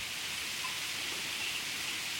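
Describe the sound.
Rain falling in a steady, even hiss of raindrops, soft and continuous with no distinct drops standing out and no talk.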